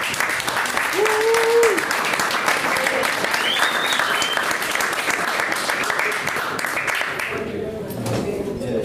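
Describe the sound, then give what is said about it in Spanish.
Audience applause greets a singer: dense, fast clapping from many hands holds steady and loud for about seven seconds, then thins out and fades near the end. “le damos un aplauso a Amanda Durán”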